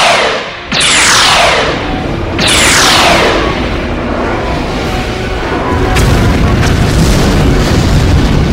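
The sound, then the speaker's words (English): Photon torpedoes fire in a science fiction sound effect: two loud bursts, each a whooshing sweep that falls in pitch, over a constant heavy rumble that continues to the end. “Photon torpedoes are firing.”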